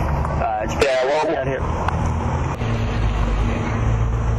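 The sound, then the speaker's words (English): Buses and cars drive past outside in a steady, low roadway rumble that continues under a person talking on a cell phone. “I'm sitting outside. Yeah, we got buses and cars driving by constantly.”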